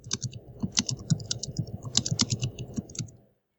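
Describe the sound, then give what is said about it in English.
Loud typing on a computer keyboard, a busy run of uneven clattering keystrokes in quick irregular bursts, heard alone and stopping just before the end. “you type so loud.”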